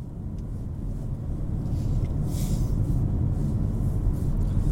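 Steady low road rumble from a car being driven at 68 in a 60 zone while other drivers overtake, a continuous, even drone with no voices.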